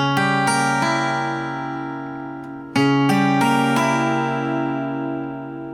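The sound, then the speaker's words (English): A C sharp diminished chord is played twice. Each time several notes strike in quick succession and then ring on, slowly fading. “And what I do is I played a C sharp diminished chord to get us into the chorus. And a diminished chord sounds like this.”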